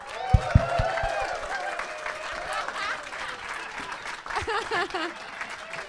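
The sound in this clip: An audience applauds and claps to welcome a host onto the stage at a live comedy show, a steady moderate wash of clapping with voices talking over it.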